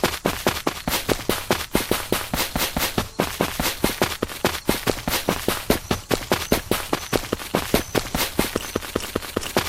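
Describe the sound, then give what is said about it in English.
Pistol shots ring out in a video game: many sharp, evenly spaced bangs follow each other in a fast, steady rhythm across the whole stretch, each a crisp, loud crack. “Let's show you the pistol. Pistol. 17 out of 17. That's what it sounds like when you shoot that.”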